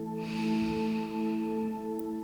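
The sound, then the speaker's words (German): A slow, deep breath drawn in through the nose, soft and airy, rising gently and then fading over sustained background music tones during a guided relaxation. “Atme einmal tief durch deine Nase ein”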